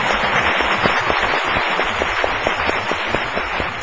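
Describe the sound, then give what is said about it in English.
An audience applauds newcomers at a gathering, a dense, steady patter of many hands clapping at an even level throughout. “给你鼓掌。 And they applaud you.”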